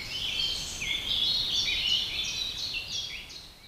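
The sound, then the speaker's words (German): Birds sing in the treetops of an old oak in spring: many overlapping high chirps and warbled phrases run continuously at a low, steady level, with no voices. “Vögeln in den Wipfeln der altehrwürdigen Eiche ist das wohl recht. Sie feiern auf ihre Weise. Den Mai, den Frühling und die Rückkehr des Lichtes. Sie singen und füttern ihre Jungen.”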